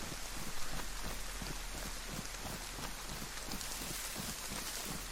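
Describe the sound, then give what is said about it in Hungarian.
Steady rain falls in a continuous, even hiss of dense patter that holds at a constant level for the whole clip, with no voices. “Mennyire jó lenne, ha elállna az eső.”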